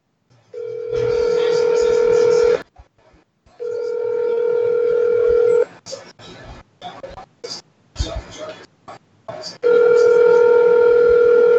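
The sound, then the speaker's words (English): Telephone tones while placing a call: three long, steady, mid-pitched tones, each lasting about two seconds. A short stretch of choppy, clicking sounds falls between the second and third tones. “Should we randomly cold call Alan on this?”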